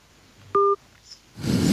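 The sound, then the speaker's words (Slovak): A telephone dialing a number: a single short, clear touch-tone keypress beep, followed by a swelling rush of hiss. “Voláme, voláme Lili. Dobre voláme Lilianu.”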